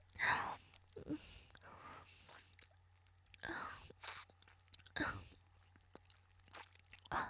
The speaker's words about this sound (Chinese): 老公，太好吃了，可能是这边的特产吧。在咱们家根本没有这么粗这么大的冰棍。